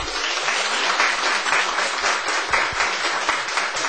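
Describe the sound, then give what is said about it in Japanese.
Applause from a church audience welcoming a pastor and his wife at a service. The clapping is dense, steady and fairly loud, continuous for the full four seconds, with no voices. “拍手でお迎え”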